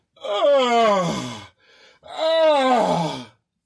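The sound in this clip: A man's voice imitates another man's loud moaning heard from a toilet stall: two long, drawn-out groans with wavering pitch, separated by a brief quiet gasp.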